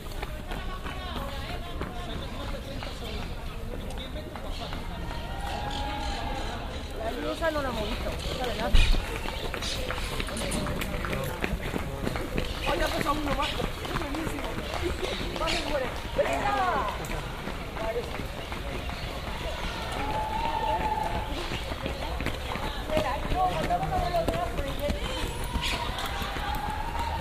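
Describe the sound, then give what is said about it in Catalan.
Runners' footsteps at the Sant Cugat half marathon: many rapid, overlapping footfalls slap the ground in a steady patter, with people talking over them. “I res, si voleu, podem escoltar la mitja de marató de Sant Cugat.”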